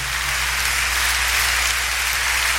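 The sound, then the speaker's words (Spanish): A church audience applauds the Lord in a dense, even patter of many hands that holds at a constant level throughout, over a low steady hum. “Cuando le dan un aplauso al Señor por esa presencia.”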